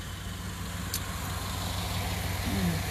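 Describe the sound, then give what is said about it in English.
Car traffic on Jordan Street, a single-lane street where vehicles line up in single file. A faint, steady engine rumble with idling hum continues throughout and does not rise or fall. “This traffic is actually always single lane file on Jordan Street.”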